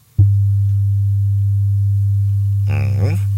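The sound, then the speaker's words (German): A pure, low, steady tone said to prevent motion sickness starts abruptly and holds unchanged throughout, with a voice beginning over it near the end. “Der hat so eine spezielle Frequenz, exakt 100 Hertz, und der hört sich so an.”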